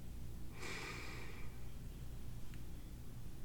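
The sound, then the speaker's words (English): One soft, airy deep inhalation lasting about a second, drawn during a guided breathing and relaxation exercise, faint and otherwise alone against quiet background hiss. “Breathe in.”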